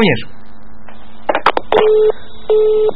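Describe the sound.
A telephone busy tone after a caller hangs up sounds as two short, steady electronic beeps, preceded by a few sharp clicks of the handset and a brief voice at the start.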